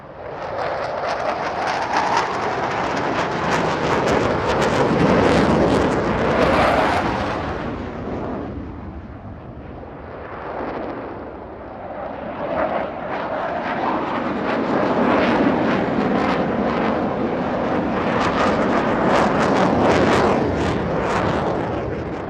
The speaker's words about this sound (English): it just so happened that we were in the direct flight path, so when the jets made their grand entrance, they were literally over our heads.